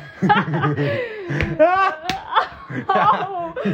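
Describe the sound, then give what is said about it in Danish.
A sharp slap to the face cracks out briefly amid giggling, snickering laughter and lively voices. “Nei, jeg mente ikke å slå deg hardt i fjeset.”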